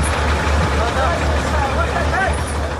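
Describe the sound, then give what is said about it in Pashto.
Large trucks drive on the Uruzgan–Kandahar highway, helping smaller vehicles through rough, muddy stretches. A low, steady engine drone runs throughout, with voices talking over it. “دا د اورزګان او کندهار د لیلاري پر سر غټ موټرونه دي چې د کوچنی موټرو سره مرسته کوي”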